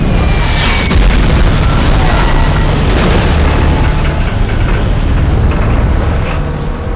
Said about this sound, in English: Another direct bomb strike next to the smokestacks blasts two machine guns over the side.